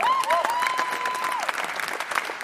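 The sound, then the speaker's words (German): Theatre audience applauding after a lively stage performance: brisk, dense clapping with a rising whistle-like cheer over it, loud and sustained for the whole moment. “Eine sehr lebendige Vorstellung, die die Zuschauer am Schluss mit Jubelrufen und Applaus belohnen.”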